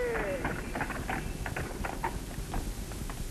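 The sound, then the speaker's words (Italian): Clip-clop of a horse-drawn carriage, a continuous run of many quick hoof strikes at a fairly even rhythm over a steady rumbling background noise. “Una carrozza. Saranno quegli altri.”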